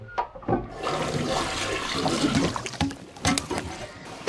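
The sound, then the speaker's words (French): A toilet flushes with a loud, sustained rush of swirling, gurgling water that lasts about four seconds, with a few sharper splashes near the end. “Le geste est banal. On tire la chasse plusieurs fois par jour sans aucune forme d'appréhension.”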